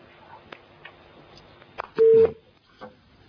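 A telephone line tone signals an incoming call: one short, loud electronic beep rising out of faint line noise, with a few quiet clicks around it.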